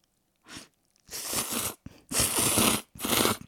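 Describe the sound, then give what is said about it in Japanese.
Someone scoops up and eats tuna and tomato bukkake somen noodles, making several short, crunchy, moist eating bursts separated by brief pauses. The bursts are fairly loud, with no talk over them. “今回はツナとトマトのぶっかけそうめんにして食べてみたいと思いますはいこれねすくって”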